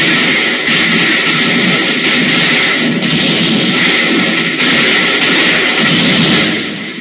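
A volley of gunfire, a sound effect of a loud, sustained crackling battle din with a few sharper cracks inside it, holding steady for several seconds before fading at the end.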